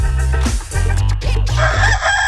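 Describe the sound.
A rooster crows loudly in a drawn-out, harmonically rich call lasting about two seconds, heard alone without any talk.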